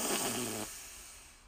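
A single deep human breath, an airy rush lasting under a second that cuts off and trails into a quiet hiss.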